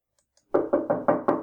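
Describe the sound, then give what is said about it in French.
Five firm knocks on a door, struck from inside a room, come in a steady, even rhythm. Each is a loud, hollow thud with no voices around it. “On frappe à cette porte. Qui cela peut-il bien être ?”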